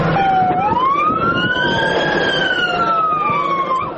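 An ambulance siren wails on the way to an emergency hospital in Lashkar Gah, Helmand, its tone sliding up and then down in one long sweep over a steady vehicle rumble.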